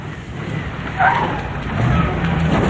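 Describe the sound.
A truck arriving, its engine a low, steady rumble that swells around the middle and grows fuller toward the end, with no talk over it.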